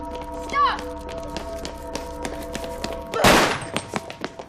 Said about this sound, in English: 1071, shots fired!